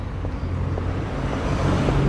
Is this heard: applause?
no